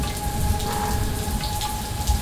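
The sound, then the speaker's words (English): Steady rain falls on a rainy day in Los Angeles with no thunder, a continuous even hiss of drops that stays unbroken from start to end with no voices. “It's very rainy today. Minus the thunderstorm, it pretty much sounds like this in LA.”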